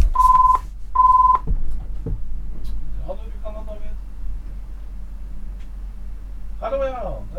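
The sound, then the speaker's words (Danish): A telephone signal sounds after a number is dialed: two steady beeps, each about half a second long, at the start. Clicks and voices talking follow. “71, 71, 71. Der ringer det.”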